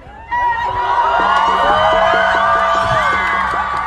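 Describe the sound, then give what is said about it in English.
Protesters in Canada cheer and shout as they pull down a Queen Victoria statue. A loud, dense mass of voices holds steady throughout, with a rhythmic chanted pulse running beneath the roar. “What you're hearing there is the sound of protesters in Canada pulling down a statue of Queen Victoria.”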